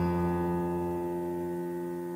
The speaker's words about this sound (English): There's this pedal that if I step on the pedal and push the exact same note, it sounds like this.